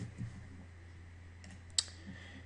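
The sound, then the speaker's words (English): A single sharp mouse click on an OK button in a software dialog, made while setting up an XPression graphics project, stands out against a faint low hum. “And I'll click OK.”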